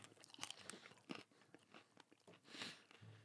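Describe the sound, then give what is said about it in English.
Crisp crunching and chewing as hot chicken wings coated in plenty of sauce are eaten down to the bone, with many irregular bites and cracks over a few seconds and no talking. “I wish it was easier to get off the bones and I didn't have to eat the bone.”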